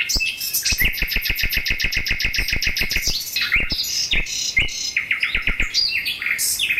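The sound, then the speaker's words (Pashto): Caged birds sing in a flower greenhouse: a rapid run of many sharp, high chirps in an even rhythm, then a varied series of quicker twittering phrases, with no voices. “په قفس کې د بند مرغانو بهرنۍ سندرې له خونده ډکې دي.”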